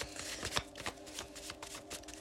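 A deck of tarot cards being shuffled: many quick, papery flicks and soft slaps in an uneven rhythm, quiet and alone.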